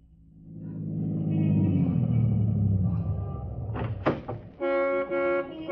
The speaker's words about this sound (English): Lawton was waiting on a busy New Orleans corner for his brother when a brand new Cadillac sedan pulled to a stop.